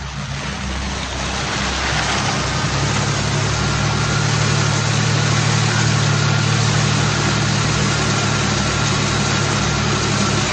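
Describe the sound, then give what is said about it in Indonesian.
A car engine idles with a loud, steady, low rumbling drone and an even hum that stays constant from start to finish, with no voices. “Aku matikan mesin mobil dan mencoba melihat ke bawah mobil.”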